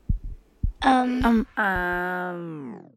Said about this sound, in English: we can really not only feel the pulsation in our neck, we can sometimes even hear it in our ear.